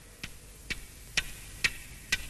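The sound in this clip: A clock ticks five times, faint and evenly spaced about half a second apart, each a crisp, bright tick with no other sound.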